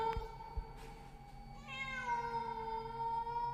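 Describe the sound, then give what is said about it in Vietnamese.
A cat gives one drawn-out, shrill meow, tonal and slightly wavering, that starts partway in and holds to the end. The cry is faint and carries over a quiet, steady background hum. “vật mềm mềm ấy mở đôi mắt xanh lè lè, rít lên một tiếng meo, làm cho hắn rợn cả người.”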